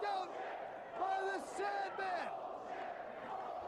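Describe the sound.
Wrestling crowd chanting at a 1995 ECW barbed-wire match, a few loud shouted syllables in a rhythmic chant, each call dipping in pitch at its end, over a constant roar of the crowd.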